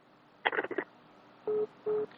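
A telephone busy tone after a caller's line dropped, two short, steady, mid-pitched beeps sounding fairly quietly, preceded by a brief jumble of noise.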